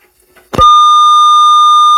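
Telephone disconnection tone after a call drops: a sharp click, then a loud, steady, high-pitched beep that holds unbroken to the end.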